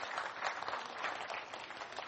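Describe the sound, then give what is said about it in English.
Applause from a group of children being praised for good behaviour: dense, steady clapping that holds at an even level for the whole stretch, with no voices rising above it. “Well done, kids. Give yourselves a clap.”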